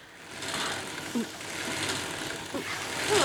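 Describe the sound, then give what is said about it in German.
Sewing machine run with a foot pedal, its needle rattling fast in a continuous mechanical whirring chatter that swells and grows louder near the end. “Vorsicht! Die Nadel hat zu schnell gerattert und du bist mit dem Stoff nicht nachgekommen.”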